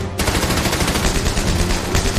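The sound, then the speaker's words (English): Machine gun fire in battle on the Gothic Line in Northern Tuscany, April 1945, breaks in after a brief quiet moment, then runs as a loud, rapid and continuous stream of overlapping shots. “Second Lieutenant Vernon Baker and his platoon must get past the machine gun fire.”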